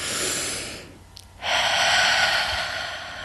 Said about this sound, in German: komme mit einem tiefen Atemzug